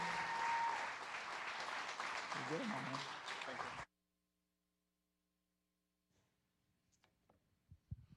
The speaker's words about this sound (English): will you help me give it up, first of all, for Anthony Reid? Come on, Journey, make him welcome.